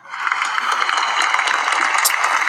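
Studio audience applause sound effect, a dense, even wash of many hands clapping that swells in at the start and holds steady and fairly loud throughout, with no voices.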